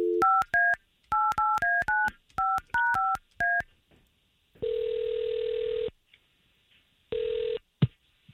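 Telephone number dialed for a call: a quick, uneven series of about a dozen bright touch-tone keypress beeps, then a pause and long, steady ringback tones as the line rings.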